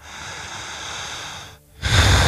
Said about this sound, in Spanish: Lento, hondo. Lento, potente. Una respiración exagerada, poderosa, portentosa. Una respiración vigorosa.